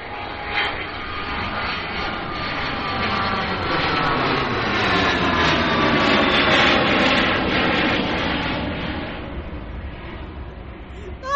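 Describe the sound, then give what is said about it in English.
An airplane jet engine roars, broad and loud, holding a steady, dense rush for the whole stretch with a slight swell toward the middle. “Pilot, can you take me to Turks and Caicos? Thank you very much.”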